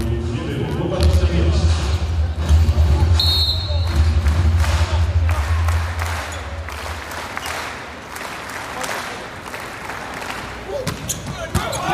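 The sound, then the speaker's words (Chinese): An ace serve by Yang Baoqi for China in a men's volleyball match: dull thumps of the ball are heard amid crowd applause and cheering, with a commentator talking over much of it. “好发球，杨宝奇发球直接得分，中国队重新领先，现在中国队反超拿到了第一局的局点。”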